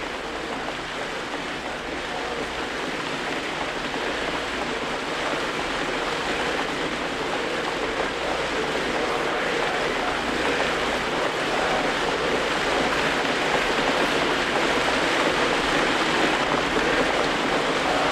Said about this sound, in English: Listen to my voice as you listen to the sound of the rain. The sound of the rain needs no translation, no explanation.